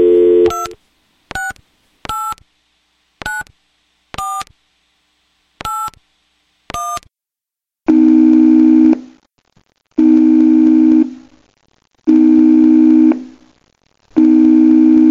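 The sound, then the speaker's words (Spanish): A telephone call is dialed. A brief low tone gives way to a string of short, sharp keypad dialing tones. Then four long, loud busy-signal tones repeat at a steady rhythm with short gaps. “Luego se dirige a la mesilla de noche y hace una llamada telefónica.”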